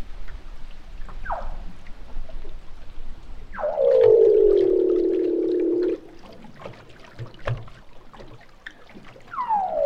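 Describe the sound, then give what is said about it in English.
Underwater seal calls recorded with a hydrophone: a few brief descending sweeps and one long, loud, low call that slides down and then holds steady for about two seconds, over constant crackly, patter-like background noise. “Seal underwater.”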